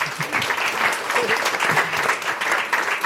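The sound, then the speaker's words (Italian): Applause from an audience: a steady wash of clapping hands at moderate level that holds without a break from start to finish. “Ci sarebbe un applauso a questo punto”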